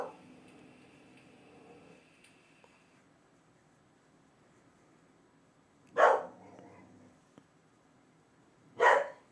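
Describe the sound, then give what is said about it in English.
A dog barks twice, short and sharp bursts a few seconds apart, each rising clearly out of near silence. “that's JoJo barking. Okay, she's done.”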